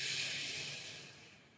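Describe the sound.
A single long, airy breath exhaled during a meditation, a soft hiss that starts strong and slowly fades away.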